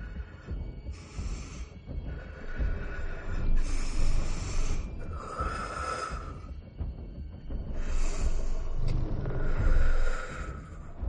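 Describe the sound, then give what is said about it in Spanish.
A crouching woman who has been crying breathes deeply, drawing several slow, airy breaths that rise and fade over a low, throbbing hum. “Respira profundamente.”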